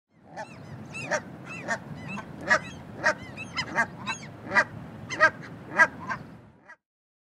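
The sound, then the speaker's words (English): Canada goose calling: many loud, nasal honks repeated at a fairly steady rhythm, each a short harsh bark standing out over a low, continuous rumble. “Canada Goose.”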